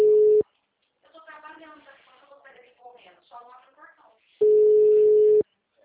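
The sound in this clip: Ringback tone of an outgoing phone call: a steady, low-pitched beep, first cut short at the start and then one longer beep after a stretch of talk.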